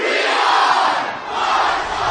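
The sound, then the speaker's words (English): A stadium crowd chants the 'We are Marshall' cheer for the Thundering Herd football team, a loud, sustained mass of voices that dips briefly midway before surging back to full strength. “And then the silence gave way to the cheer that had echoed from the stands during games of the Thundering Herd team.”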